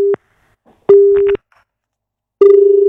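Telephone line tone as a call comes in: three steady electronic beeps at one pitch, first very short, then a longer one, then a final tone running to the end, loud and alone.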